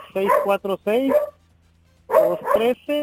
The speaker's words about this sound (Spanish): Es que el perrito está diciendo, sí, cada vez que él habla,